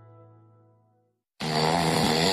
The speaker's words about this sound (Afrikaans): My man snork soos 'n walvis wat 'n generator ingesluk het.